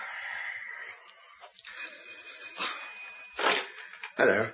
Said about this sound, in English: That's the doorbell, dear, not the telephone.